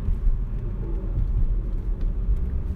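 A car is being driven, with a steady low engine and road rumble that stays loud and continuous throughout, and no talking.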